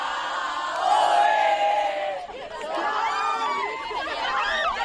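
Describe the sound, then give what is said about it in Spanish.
The Deportivo Abanca women's team celebrates promotion on a balcony at Plaza de María Pita. A loud crowd of voices cheers, whoops and shouts continuously in high, excited tones. “En este caso, en la Plaza de Marapita, salieron al balcón, fueron recibidas por la alcaldesa Aine Rey, siguen de fiesta, y así sonaba el Depor a Banca en el micro de la Televisión de Galicia.”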